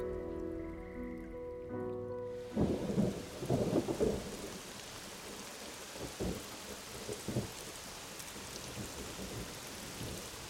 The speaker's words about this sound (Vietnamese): Mưa rồi đấy. Mưa đổ xuống ào ào, nền bê tông của nhà máy lộng bọng nước.